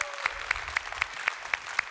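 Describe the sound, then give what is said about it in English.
A church audience clapping to welcome its online family, with seven crisp, evenly spaced claps in a steady quick rhythm over a soft background wash. “So if you would, put your hands together. Welcome in our online family today.”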